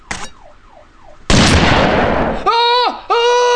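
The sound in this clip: A sudden, loud gunshot-like blast of broad noise cuts in after a warbling, alarm-like tone and lasts about a second. Loud, bright harmonic electronic tones follow it.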